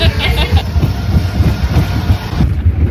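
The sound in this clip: Roller coaster cars rumbling and rattling along the track as the ride gets under way, heard from the rearmost seat; a loud, continuous low roar with steady clattering throughout.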